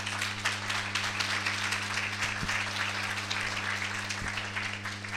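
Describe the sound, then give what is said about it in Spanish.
Faint, steady applause from an audience at a meeting: continuous clapping throughout, with a low electrical hum underneath. “Pueden aplaudirla si quieren a Gladys.”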